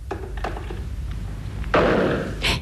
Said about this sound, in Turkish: Neydi o? Biri ateş etti galiba.